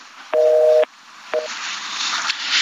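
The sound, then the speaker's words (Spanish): A telephone call cuts off during a phone interview: two tonal beeps of a disconnect signal, the first about half a second long and the second shorter, over a steady line hiss that continues afterward. “se nos, se nos cortó, se nos cortó la llamada”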